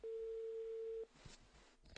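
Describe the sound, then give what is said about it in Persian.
A single steady telephone line tone sounds for about a second as a call is placed to a nurse at a hospital, then cuts off into faint line noise with a few soft clicks. “باشون ارتباط تلفنی برقرار میکنیم”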